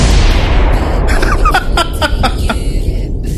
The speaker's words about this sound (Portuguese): Aí a bomba.